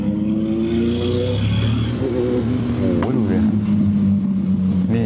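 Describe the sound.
A big motorcycle speeds away near an intersection, its engine droning loudly with steady low harmonics and a brief revving sweep midway through the run.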